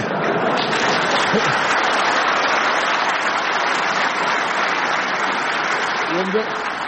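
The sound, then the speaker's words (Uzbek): Crowd applause in a played video of a public event around a statue of Ulugbek, with steady, dense clapping that merges into a rain-like roar and talking underneath. “Shavkat Mirziyoyev Ibn Sinoning boshini kesib, Ulug'bekning tanasiga o'rnatib qo'ygani uchun yangrayotgan qarsaklarga e'tibor bering.”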